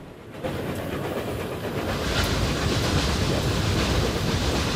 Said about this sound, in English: The train passes under two bridges in quick succession.